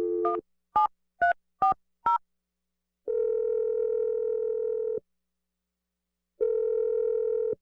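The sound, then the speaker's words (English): Telephone tones as a number is called: five short, evenly spaced keypad beeps, then a loud, steady ringing tone that holds for about two seconds, a silent pause, and the tone again. “I'm going to dial Teresa's number if you're ready.”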